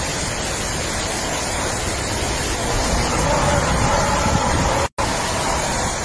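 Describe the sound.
Wind and waves tossing and tipping over a boat: a steady, loud rushing roar of wind and water runs throughout, broken by one brief dropout near the end.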